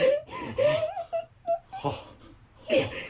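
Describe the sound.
Someone crying and whimpering in distress, homesick in a desolate place at night: a series of wavering, high-pitched moaning sobs that come in short bursts with breathy gaps between them.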